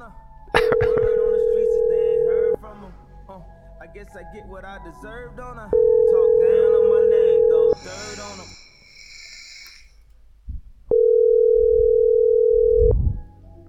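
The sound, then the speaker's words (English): A telephone tone sounds while a home number is being called: three long, steady, low hums of about two seconds each, separated by pauses. Voices talk and react between the tones. “I'm going to call her home number using the caller ID from the club so she knows it's us.”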